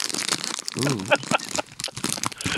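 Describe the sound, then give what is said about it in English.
Crinkling and crunching of a bag of vegetarian chips being torn open, rustling throughout, with a short voiced sound and people talking over it. “So, Jeff, in the sense of you being vegetarian, I wanted to bring a certain kind of vegetarian style chips. So, I'm going to open these chips. A little ASMR.”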